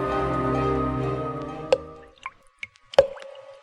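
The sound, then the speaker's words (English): Dripping blood: a few sharp, wet drips fall one at a time, each a clear, separate plop, after a low sustained droning tone fades away. “The sound you hear is dripping blood.”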